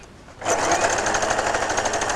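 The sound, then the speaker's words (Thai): Sewing machine stitching fabric with the presser foot lowered, sewing along a zipper: a rapid, steady mechanical whirring chatter starts abruptly and runs evenly at constant loudness. “วางตีนผีลงค่ะหรือเท้าทับผ้านะคะแล้วเราก็เย็บนะคะแล้วเราก็ค่อยๆไล่นะคะ”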